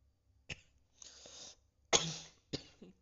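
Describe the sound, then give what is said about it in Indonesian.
A few dry, harsh coughs from one person, short bursts of uneven length separated by brief quiet gaps, loud and alone with no talking. “sorry gue batuk.”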